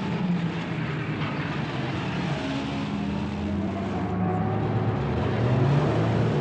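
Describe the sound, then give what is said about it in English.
Engines of a convoy of military trucks loaded with personnel rumble as the vehicles set off from a compound: a continuous, dense low drone with no voices that swells slightly toward the end. “Various trucks form a convoy and set off from the compound.”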